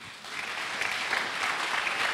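An audience applauds in a faint, continuous patter of many hands clapping, starting softly and swelling slightly, steady and even with no speech over it.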